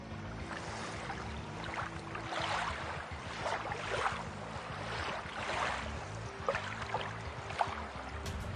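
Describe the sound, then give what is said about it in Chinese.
Water splashes and sloshes as staff stir up waves, mimicking swimming, in a water-visibility experiment. The sound is a continuous, moderately quiet churning with uneven swells and occasional sharper splashes. “我们请我们的工作人员啊，来制造一下我们在游泳时产生了水波纹和浪花的情况下，结果又会有什么不同呢？来，我们制造一些浪花。”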